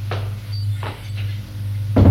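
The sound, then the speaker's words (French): A door is closed: a few soft bumps and clicks lead to a louder, sharp thud at the end, all over a constant low hum. “ferme la porte derrière lui”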